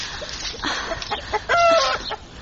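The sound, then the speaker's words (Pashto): Chickens clucking in a home courtyard where grain has been scattered, a run of short, quick clucks building to a louder drawn-out squawk. “چرګو ستړی مکړم، لور مې مغزه مه خورئ. ورځئ هلته، لرې مې دانه درته اچولې، هغه وخورئ.”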